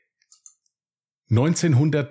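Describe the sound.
A few faint, brief clicks in quick succession, followed by a loud voice that starts talking over them.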